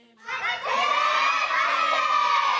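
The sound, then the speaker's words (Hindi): A group of older children shout a programme's name together at full volume in a loudness contest, a loud, sustained burst of unison voices that starts abruptly and holds steady to the end. “मुकाबला करवाते हैं ठीक है देखते हैं किसकी ज़्यादा तेज़ आवाज़ आती है। सब बच्चे प्रोग्राम का नाम बताएंगे जल्दी। मुकाबला ऐसे होगा सबसे पहले बड़े वाले बच्चे”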